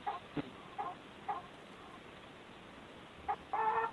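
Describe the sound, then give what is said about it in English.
A chicken clucks in a few short, faint bursts, then gives a longer drawn-out call at the end, with quiet gaps between the sounds. “I don't want your chicken. Ask the lady if we should bring the chicken to the desk.”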